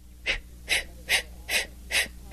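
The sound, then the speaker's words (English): Breath pushed out from the lower abdomen in a vocal breathing exercise: five short, sharp puffs at an even rhythm, each one alone and of about equal strength. “you put your hands together in the front of your body and take a long deep breath and let it out like so”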